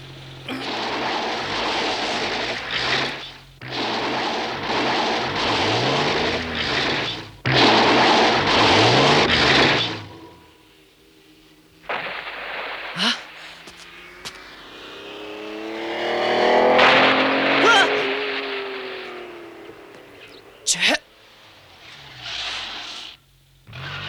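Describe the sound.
A car engine roars as the car drives off with an inexperienced driver at the wheel, in several long loud bursts broken by short gaps. A surging rev then swells and fades with shifting pitch, with no talk.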